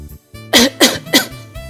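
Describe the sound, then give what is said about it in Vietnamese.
Three harsh coughs from men drenched with water, hacking up licorice stalks. The coughs come as loud, evenly spaced bursts with a brief hush before them. “Đám người Trần Hổ ho khụ khụ khạc ra mấy ngọn cam thảo trong miệng”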